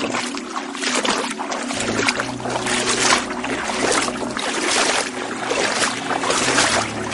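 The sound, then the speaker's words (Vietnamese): Someone wades through water at a cave entrance, making repeated sloshing splashes in a steady rhythm, fairly loud and continuous throughout. “Dục Du định phản bác nhưng chợt nghe thấy tiếng lội nước ở phía cửa hang.”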